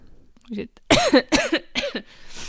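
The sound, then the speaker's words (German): A person coughs and clears their throat in a few rough, raspy bursts clustered together, loud against a quiet background. “ich werde übrigens mein Husten nicht rausschneiden oder mein Räusper”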